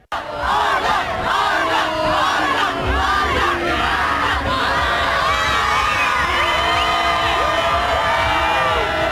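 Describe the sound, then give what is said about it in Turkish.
Football fans chanting in stadium stands before a Turkish national team training session, a loud, continuous crowd roar of massed shouts, whoops and cheers sustained without pause throughout. “İdman öncesi tribünler milli takıma uzun süre tezahüratta bulundu.”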